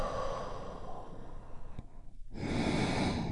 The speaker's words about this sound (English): deep, healing breath with me right now. Here we go. And release.